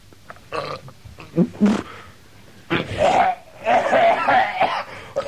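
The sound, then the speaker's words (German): A person retches and spits in several irregular, throaty gagging bursts separated by short pauses. The last stretch is longer and more strained. “Entschuldigung, ich habe nur kurz speien müssen.”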